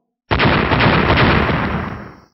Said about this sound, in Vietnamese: Lôi cầu và diễm đao va vào nhau, liền liên tiếp truyền ra tiếng nổ long trời lở đất